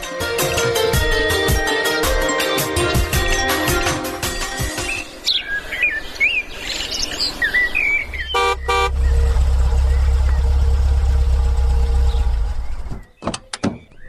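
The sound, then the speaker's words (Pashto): A car's engine idles as a steady low rumble through the latter part, after a stretch of bird chirps. “درځه موټر ته در وخیژه، الله ژر کوه”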